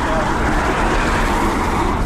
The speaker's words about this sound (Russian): Как вы видите, приехал автобус.